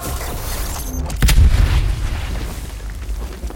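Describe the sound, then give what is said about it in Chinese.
A single heavy gunshot, a headshot in a team shooter video game match, bursts out over a steady bed of game noise and then fades back into it. “Siri 马上送了一发爆头给 Invicta，白队少了一人”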